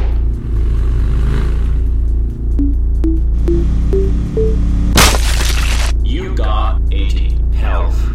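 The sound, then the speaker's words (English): A bomb explodes in a video game: a sudden loud, crackling burst lasting about half a second breaks over steady game music, after a short rising series of bright tones, with rougher noisy bursts following. “I wonder if I can show you how bombs work.”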